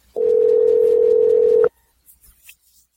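Steady telephone dial tone heard when calling someone back after reaching voicemail. The loud, unbroken hum lasts about a second and a half, then cuts off abruptly, leaving only a few faint soft noises.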